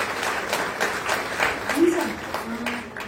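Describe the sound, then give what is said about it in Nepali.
Group applause as a church gathering claps together in welcome, many hands sounding as a steady patter with brief voice traces underneath. “म सबै जनालाई एक मुष्टको स्वागत भन्दै हामी एकसाथ ताली बजाएर हामी सबैलाई एकअर्कालाई स्वागत गर्छु”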